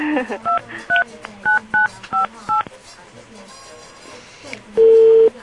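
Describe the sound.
Telephone keypad dialing tones while redialing an unanswered call: a quick run of short, evenly spaced beeps at varying pitches, then a pause and one longer steady tone.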